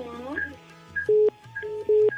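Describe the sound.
Telephone keypad tones as a number is dialled: a few short, high beeps and two longer, steady, louder tones, with quieter murmuring underneath.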